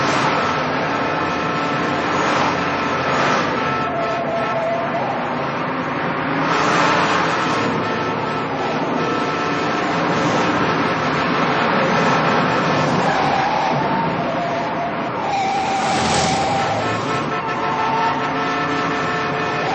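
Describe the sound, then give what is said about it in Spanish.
A car engine roars as the driver floors the accelerator in a street chase just after a side collision, a loud, sustained, straining rush that surges and swells across about twenty seconds. “Chocan lateralmente y Jimmy continúa la persecución. Pisa a fondo el acelerador.”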